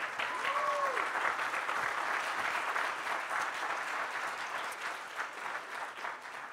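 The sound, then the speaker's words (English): A church audience applauds for mothers in a steady wash of many hands clapping that runs for several seconds and eases slightly toward the end. “Let's have a hand for our mothers.”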